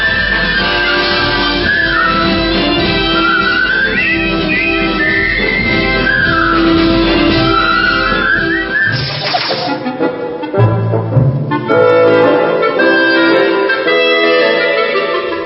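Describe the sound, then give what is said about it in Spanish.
Soldiers whistle a military march in a film, a wavering high melody carried over a full, loud band accompaniment. Partway through, the music shifts into a different, sparser passage. “Es la marcha del coronel Boogie que silban los soldados al inicio de la película”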